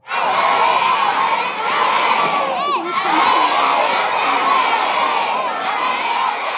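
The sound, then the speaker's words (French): Elementary schoolchildren in St. John's, Newfoundland, cheer and shout encouragement for a professional hockey player, a dense, loud, continuous roar of many young voices that holds steady throughout. “On entend des élèves de l'école élémentaire Vanier à Saint-Jean-de-Terre-Neuve qui encouragent Alex Newhook du Canadien de Montréal.”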